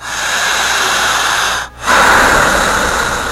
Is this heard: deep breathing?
yes